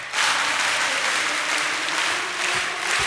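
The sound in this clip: A church audience applauds for about three seconds in a dense, steady wash of clapping, sustained and even throughout with no voices over it.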